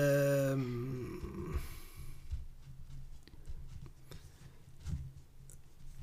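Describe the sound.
A pen scratches across paper during a game of stop, in short, irregular scratchy strokes that are fairly faint.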